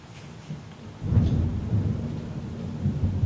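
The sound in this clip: A thunderstorm: after a second of quieter rain, a deep rumble of thunder swells and keeps rolling steadily over the hiss of falling rain.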